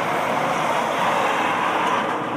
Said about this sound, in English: There it goes. This was an unbranded, giant, new kind of garbage truck.